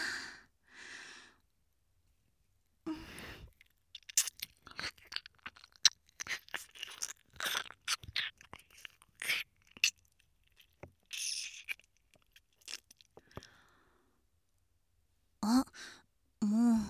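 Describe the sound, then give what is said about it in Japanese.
Intimate ear-nibbling mouth sounds, with many soft, wet clicks, smacks and crunchy nibbles coming in bursts, broken by breathy sighs and quiet gaps. “君の美味しいお耳もっとハムハムさせてね。”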